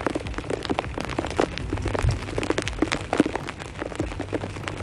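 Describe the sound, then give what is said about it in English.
Rain pouring down onto a jacket, a dense, steady patter of many irregular taps and soft crackles at moderate loudness, with no voices. “you're hearing rain pour down on my jacket.”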